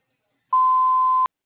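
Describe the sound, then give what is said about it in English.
A voicemail beep tone: one clean, steady, mid-pitched electronic beep lasting under a second, alone between stretches of silence. “Please leave one detailed message after the tone with the best phone number to contact you”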